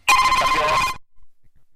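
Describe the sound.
A telephone ringing: a single bright, warbling electronic ring lasting about one second, loud and alone, then cut off into near silence.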